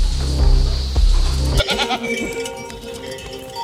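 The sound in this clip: A large, calm goat on an organic dairy farm bleats in a short, wavering call after a steady low drone cuts off partway through.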